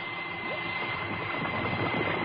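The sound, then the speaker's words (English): Engine drone of a small deep-sea craft as its main battery pod is released, a dense, even hum that holds steady throughout with no clear change in level. “There'll be a drop in engine power as soon as the main battery disconnects, so don't get alarmed.”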